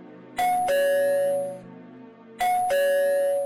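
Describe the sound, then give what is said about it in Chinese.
A doorbell rung urgently: a two-note ding-dong chime, higher then lower, sounding twice in quick succession, each ring loud and clear and decaying slowly. “听到急促的门铃声”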